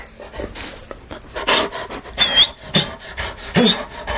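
Panting of a pet dog that has just been given a bone: a run of breathy, huffing pants in uneven bursts, moderately loud, with no talk over them.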